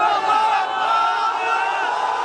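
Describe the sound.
A crowd of hundreds cheers in joy as rescuers pull a family one by one from the rubble of collapsed buildings in Syria, a dense, continuous roar of many voices that stays loud throughout.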